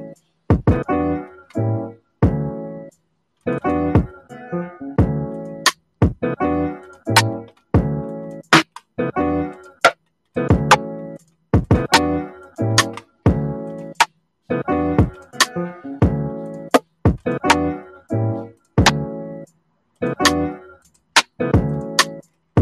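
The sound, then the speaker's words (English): Rim shots in a beat being put together: sharp, crisp cracks hit in a steady, repeating pattern, loud throughout, with short tonal melodic phrases sounding between them. “I like using these rim shots, man. Might have to get something that slap a little harder than that”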